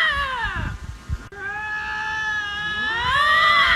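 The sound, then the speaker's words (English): A lynx makes drawn-out, wavering yowls, loud and harmonic, with the pitch sliding up and down in strained, cat-like wails that run without a break. “Now that we've all laughed at Lynx making weird sounds”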